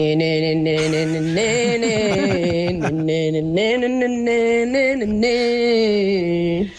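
A woman hums the chorus of a song that musicians performed live, a sustained, clear melodic line with smooth pitch glides and held notes, heard alone without talk.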